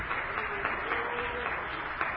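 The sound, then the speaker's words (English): An audience claps hands together in church during worship, producing a continuous, even wash of clapping at a fairly soft level. “Let's clap our hands for the Lord.”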